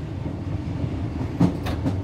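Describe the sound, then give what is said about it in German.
A cog railway train runs on a steep mountain line, giving a continuous low rumble of wheels and machinery. A few sharp metallic clanks break through near the end. No talking. “Dann geht es los, erst langsam, dann klettert die Bahn immer schneller den Berg hinauf.”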